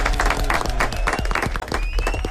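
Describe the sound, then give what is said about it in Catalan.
An audience at a quiz game applauds, dense steady clapping from many hands that fills the whole stretch without a break, loud and even, with faint crowd noise mixed in. “Molt bé, un aplaudiment.”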